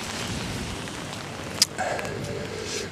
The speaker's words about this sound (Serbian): Ajde, kišo, evo te, moraš baš ono pljusak sad u glavu, evo te.